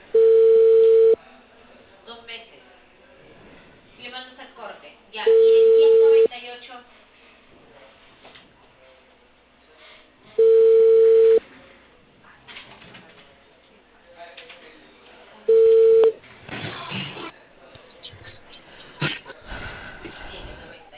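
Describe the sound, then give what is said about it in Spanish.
Telephone ringback tone on an outgoing call placed from Peru: four long, steady tones about five seconds apart, with faint background sound between them, then a voice begins talking after the last ring. “Aló, buenas tardes. Estoy llamando de Colibe, Perú”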